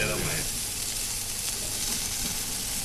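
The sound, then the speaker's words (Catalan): Sizzling of a pre-cooked octopus, dressed with olive oil and salt, searing on a charcoal grill: a loud, steady crackling hiss that continues without pause. “M'agrada com sona a mi la brasa. I deixarem... El pulpo ja està cuinat. Lo que volem és atemperar-lo i donar-li aquest toc de brasa.”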